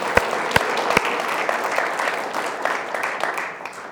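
Church audience applauding the mothers: dense, sustained clapping that opens with a few sharp, loud claps and then fades slightly toward the end.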